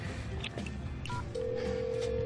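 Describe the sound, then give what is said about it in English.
Telephone keypad tones as a call is dialed: a few short beeps, then a long steady tone over a noisy background. “I'm calling Allison.”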